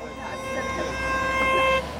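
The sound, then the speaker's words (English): A car horn honking in celebration sounds as one loud, steady, sustained blast with a bright, buzzy tone that cuts off abruptly near the end. “a car pulls up the hill, honking in celebration.”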